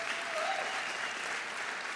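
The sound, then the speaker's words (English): Congregation applause at a church sermon: a continuous, even wash of many hands clapping for the Lord, sustained at a steady level from start to finish. “You can give the Lord a clap for that, absolutely.”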